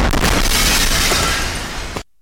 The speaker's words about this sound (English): That strike knocked the recorder over. It was so close to the BBC team's hotel that the blast broke the windows.